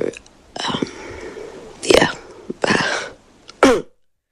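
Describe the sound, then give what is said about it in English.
A woman forces out exaggerated coughs: a few harsh, breathy bursts separated by short pauses, moderately loud, with softer rasping sounds between them. “She's really forcing the cough out there.”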